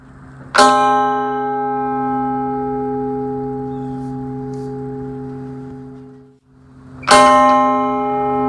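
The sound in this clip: Two separate hand-struck strikes of a clock tower chime, each a bright metallic clang that rings on with a long, sustained harmonic hum. The first slowly fades over several seconds and dies away just before the second strike rings out.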